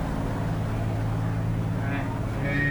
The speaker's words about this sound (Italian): Probabilmente dopo questo passaggio lo Spitfire si porterà in finale per l'atterraggio.